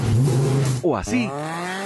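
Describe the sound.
Car engine revving through an aftermarket sport exhaust with chrome tips: a loud steady drone, then a quick sharp rev sweeping up in pitch before settling into a high sustained tone, with a short spoken question over it.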